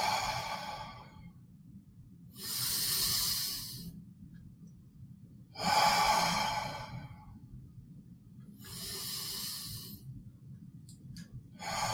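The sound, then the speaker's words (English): Deep breathing in through the nose and out through the mouth during a slow guided breathing exercise: several long, airy breaths swell and fade in a steady, unhurried rhythm over a faint low hum, with no talking. “take 3 ultra deep breaths in through the nose and out through the mouth through each finger. So do it with me. Breathe in. Breathe out.”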